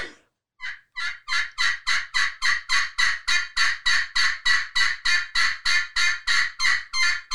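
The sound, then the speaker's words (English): A wild turkey boss hen gives an assembly call to gather the flock, a loud run of many raspy yelps at an even, rapid pace after a brief pause near the start. “just a bunch of really loud yelping. And it's basically the boss hen will try to get the flock together.”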